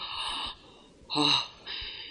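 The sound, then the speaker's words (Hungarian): Laboured, heavy breathing of an old man in a drama scene: three raspy breaths in a row, the middle one a harsher, louder gasp between two longer airy ones. “nehezen lélegzik”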